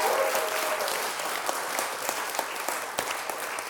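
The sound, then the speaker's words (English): A studio audience at a live event recorded in Terrapin Restaurant claps along, a soft, dense patter punctuated by a few sharper individual claps, holding steady throughout. “And once again, give it up for yourself.”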